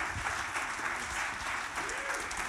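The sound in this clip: Applause from a church audience welcoming a guest speaker to the front: steady, dense clapping from many hands that holds at an even level throughout, with no voices standing out.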